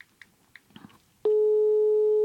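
Telephone ringback tone while calling someone: a few faint clicks, then a single steady, mid-pitched continuous tone that holds for about a second.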